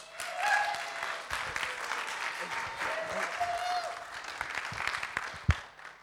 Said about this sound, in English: So please put your hands together and join me in welcoming Caleb Knowlton.